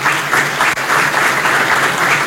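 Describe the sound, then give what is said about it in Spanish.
Audience applause fills the whole stretch, a dense, steady wash of many hands clapping at a fairly loud level, with no voice rising above it. “Un aplauso para vos, un agradecimiento.”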